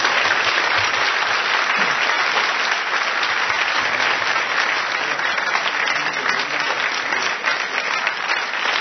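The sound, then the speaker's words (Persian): Audience applause at a religious gathering honouring Zaynab, a dense, steady clapping that holds even and loud throughout with no breaks. “یک کف خیلی زیبا برای خانم بزن.”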